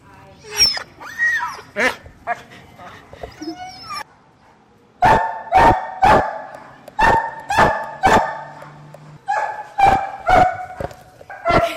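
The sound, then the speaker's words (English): Winston, a six-year-old German Shepherd or Belgian Tervuren mix, barks loudly and repeatedly in short bursts. Whimpering, yipping sounds come first, then the barks follow in quick runs with brief gaps. “You're listening to Winston. All right, so we have Winston. And Winston is a little older. He's 6 years old, but he's a German Shepherd, or maybe a Belgian Tavern mix. Beautiful dog.”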